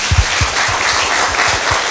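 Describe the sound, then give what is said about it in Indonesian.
Clapping for three panel speakers at a discussion on school bullying: scattered, thumping hand claps in an uneven rhythm over a steady background hiss, brief and moderately loud. “Mari kita berikan aplaus ya untuk ketiga narasumber kita.”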